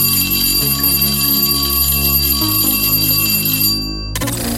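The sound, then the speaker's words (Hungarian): A radio station's identification chime plays as sustained, ringing bell tones with bright overtones. The tones change pitch a few times, loud and steady, with no voices. “Jól hallottad, ez a csengő hang volt a jeladása jelentkezése.”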